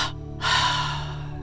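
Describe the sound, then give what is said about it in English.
A deep breath taken during a tense-and-release relaxation exercise: after a brief pause, a loud, airy breath rushes in and then slowly fades over about a second, over a steady low hum. “Inhale, tense and vibrate, and exhale and release.”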